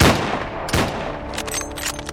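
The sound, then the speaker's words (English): Sharp gunshots from a Colt Dragoon revolver fired at a man's feet, two loud cracks in quick succession followed by a run of fainter crackling bursts. “He didn't move none, so I pulled my Colt Dragoons and shot holes by his feet.”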